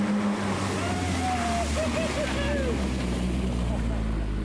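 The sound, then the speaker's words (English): A Jeep, freshly repaired and back in working order, is driven along, its engine a steady low drone throughout, with a voice faintly heard over it. “With the Jeep back to fully operational, Father Peter let me have the honor of getting behind the wheel on our way back to civilization.”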